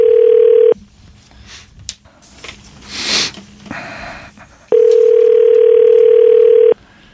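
Telephone ringing tone heard down the line: two long, steady, low-pitched tones separated by a quiet gap of several seconds, loud and clean against faint background noise.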